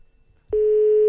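An unanswered telephone call: after a brief near-silence, a steady electronic line tone switches on abruptly and holds at one pitch to the end.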